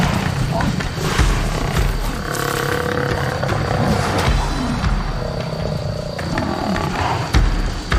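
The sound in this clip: Lions roar in a loud, low, rumbling growl as two young, inexperienced male lions face a herd of African buffalo. The roaring stays continuous and heavy from start to end.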